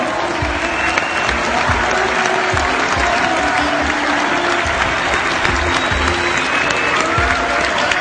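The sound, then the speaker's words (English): Church audience clapping along to a beat during worship, a dense, steady wash of claps holding at an even level with sustained tones underneath. “Let the church shout a great big hallelujah. Hallelujah. Somebody give them a beat and clap for the”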